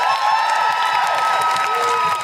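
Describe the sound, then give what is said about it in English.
Audience applause and cheering at a live show: a steady, continuous wash of clapping mixed with whoops and shouting voices from start to finish. “Can I have a big round of applause for Kat from Monzine,”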